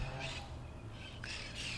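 Harsh bird squawks come in a few short bursts, faint and rough over a steady low hum, with gaps between the calls.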